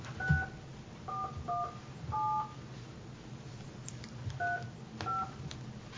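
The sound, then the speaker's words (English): A telephone number is dialed to a county office, giving several short touch-tone beeps at uneven intervals over a low, steady background hum. “Oh, I dialed 286. I dialed the BOE number.”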